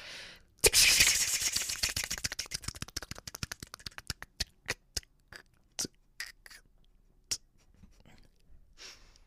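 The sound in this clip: Paper slips rattle inside a spinning raffle drum, a dense, fast clatter that gradually thins into sparse, separate clicks as the drum slows to a stop.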